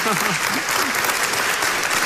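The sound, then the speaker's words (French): Audience applause at a Belgian comedy show, dense and steady at a fairly loud level. Brief voices can be heard at the very start. “Y a des gens qui viennent pas de Bruxelles ici par applaudissement.”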